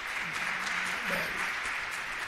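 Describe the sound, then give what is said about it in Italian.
Audience applause after a spoken prayer reading, a steady, faint patter of many hands clapping that runs unbroken through the whole moment. “Fate un applauso a Turoldo”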